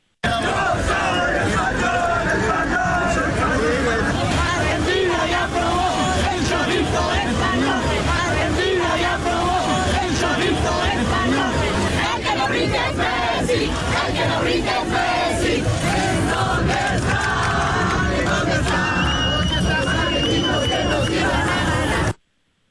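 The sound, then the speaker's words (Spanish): Football fans chant and cheer in celebration, including taunting chants aimed at the Argentine team. A loud, dense mass of crowd voices holds steady throughout, then cuts off abruptly at the end. “cánticos ya tropicalizados, sobre todo, contra el equipo argentino. Esto fue parte de lo que se escuchó.”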